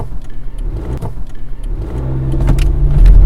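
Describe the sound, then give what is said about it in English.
A car drives on the way to the airport. Its engine hums with a low rumble that grows louder and revs up toward the end, with a few light clicks and rattles mixed in. “Here's what I was thinking as I was driving to the airport.”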